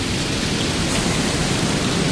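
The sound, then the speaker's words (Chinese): Heavy rain pours down in a thunderstorm, a loud, dense and steady hiss that fills the whole clip without a break, with no distinct thunderclap and no voices. “哎呀，这雨什么时候能停啊？ 好大的雨啊！”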